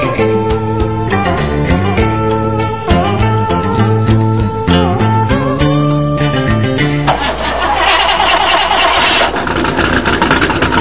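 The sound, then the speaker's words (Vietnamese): A car engine starts and revs loudly, a steady droning hum giving way to a rougher, noisier roar in the final seconds, with no talk. “Xe rồ máy om sòm”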